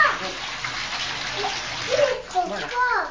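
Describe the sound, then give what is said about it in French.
Cold tap water runs steadily while a young girl's hands are washed, a constant hiss and splash with faint voices and small shifting sounds over it. “Ah, en plus, c'est de l'eau froide. Ah, et mamie te tient, alors tu vas te laver les mains.”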